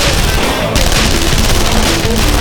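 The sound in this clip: Loud burst of gunfire sound effect following an order to fire, a dense continuous rattle of shots with no pauses across the whole clip.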